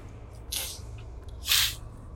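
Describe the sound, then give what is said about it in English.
A person's voice imitates a pug dog's excited sneeze: two short, breathy, spraying hisses, the second louder and longer than the first. “So you pick it up and it does the pug thing. He's like... that excited sneeze that they like to do.”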